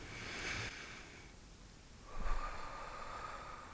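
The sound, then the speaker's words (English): A deep breath drawn in through the nose during a guided breathing exercise at a church service. The inhale is faint and airy, swells just past the midpoint, then eases off. “So we're going to breathe in through our nose.”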